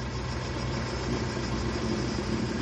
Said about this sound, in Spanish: El coche para en una curva.